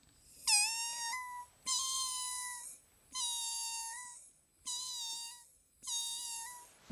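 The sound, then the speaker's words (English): A voice imitates a cat, giving five drawn-out, high meows with bright whiny tones, each separated by a short pause, fairly soft and with no other sounds. “I can actually do a cat impersonation because it's a cat.”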